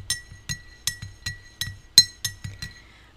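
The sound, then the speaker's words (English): A spoon clinks against a small hot cup while stirring a hot drink sweetened with honey and almond milk. The bright, glassy clinks come in a steady, repeated rhythm of about eight or nine taps, with no talking. “I'm using this little cute cup, but this cup is hot, y'all. I'm gonna stir it up a little bit.”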